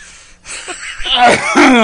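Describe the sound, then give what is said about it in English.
A person choking and sputtering on coffee, with wheezy gasps and strained, harsh vocal bursts that grow louder toward the end. “I'm going to choke again.”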